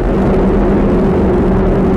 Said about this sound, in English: And liftoff of NOAA's GOES-R, America's most advanced weather eye in the sky